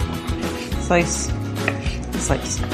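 A knife slices food on a board while enchilada ingredients are prepared, making a steady series of crisp, fairly loud cuts.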